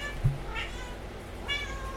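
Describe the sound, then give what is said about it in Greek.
A house cat meows twice, two short, faint mews about a second apart over a steady background hiss. “Α, ο γάτος.”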